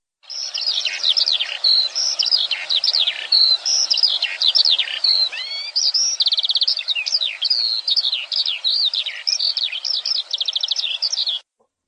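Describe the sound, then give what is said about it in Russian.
A skylark sings in the morning, pouring out a long, unbroken stream of rapid, high trills and warbles at an even, lively pace, until the song stops abruptly near the end. “Жаворонок.”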